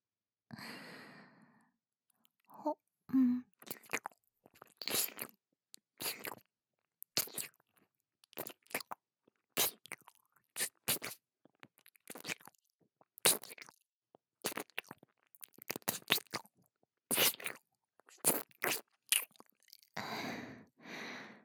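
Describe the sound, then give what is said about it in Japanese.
Soft, crunchy scratching and rustling from cleaning the other ear, in many short, irregular bursts with brief gaps. The sounds are quiet, and a breathy sigh opens the sequence. “反対の耳も 綺麗にしてあげないとね。”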